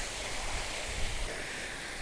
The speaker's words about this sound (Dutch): dit punt, deze fontein, kan ik vastleggen in Blind Square